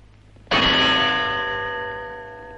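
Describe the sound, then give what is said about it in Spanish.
A gong struck once with a staff in a pharaoh's court in ancient Egypt: a single loud metallic hit that blooms into a long, sustained ringing tone with a slowly fading shimmer. “El faraón se levanta y golpea el gong con su báculo.”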